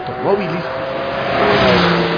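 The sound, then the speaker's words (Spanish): Car engines drone steadily in a motorsport setting tied to rally racing, with engine tones rising and falling as they rev, and the sound holds fairly loud and continuous throughout. “El sonido de los motores y las carreteras nos acompañan en nuestro espacio”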